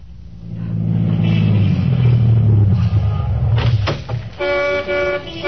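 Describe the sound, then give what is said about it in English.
A brand-new Cadillac sedan rolls to a stop on a busy New Orleans street corner, its loud engine rumble sinking in pitch as it slows. A few short knocks follow, then a car horn toots near the end. “Lawton was waiting on a busy New Orleans corner for his brother when a brand new Cadillac sedan pulled to a stop.”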